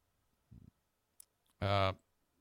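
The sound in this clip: Quiet computer mouse clicks as a link to a tweet is opened, a couple of faint, short clicks followed by a brief voice.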